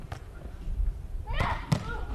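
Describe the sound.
Volleyball being served and hit during a match: two sharp, hard thumps of the ball under a commentator's voice.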